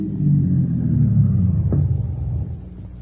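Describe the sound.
A car engine rumbles as the car drives along and pulls off onto a side road, a steady low drone that eases slightly toward the end.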